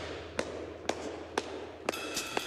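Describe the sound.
Drum rudiments in double-time swing come through as a handful of crisp, evenly spaced strikes, fairly faint, over a low steady hum.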